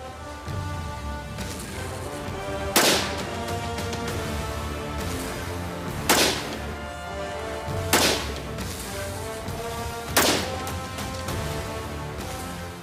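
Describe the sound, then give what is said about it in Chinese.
Unsuppressed gunshots from a rifle fired in a suppressor comparison test: four sharp, loud cracks spaced a few seconds apart, standing out above a steady tonal background. “你会发现安上消音器会提高你的射击能力，唯一的不同是枪管比以前要长几英寸，所以我们先在不安消音器的情况下进行射击。”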